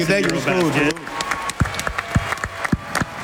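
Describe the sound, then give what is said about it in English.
Audience applause for bronze-medal-winning national team players on a talk show: a voice speaks first, then scattered individual claps ring out at a steady pace. “Get ready for a round of applause here.”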